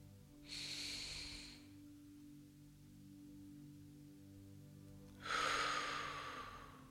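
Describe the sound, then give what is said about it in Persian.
Two slow breaths during a guided mantra meditation, each a soft airy rush a few seconds apart, the second broader and slightly louder, with quiet pauses and a faint steady low drone underneath. “دم میگیریم بازدم دو دم میگیریم”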